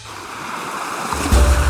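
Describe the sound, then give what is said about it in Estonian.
Pleasant murmur of water at the beach, a steady, soft rushing wash like gentle surf that swells louder toward the end. “Praegu tundub, et see mõnus vee sulin on natuke nagu narrimiseks,”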